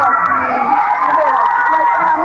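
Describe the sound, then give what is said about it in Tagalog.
Crowd shouting and cheering swells as players appear, forming a loud, dense wall of excited voices with occasional higher yells throughout. “Kaya lalo lumakas yung sigawan ng mga tao”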